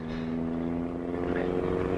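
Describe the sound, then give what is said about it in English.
A motorbike engine coming up from behind a car being driven hard, its single headlight in the mirror: a steady low droning hum that swells slightly toward the end. “Say, there's a single light in the driving mirror. Motorbike? Yeah, I guess it is. Well, get your foot down. Well, I have, and he's coming up.”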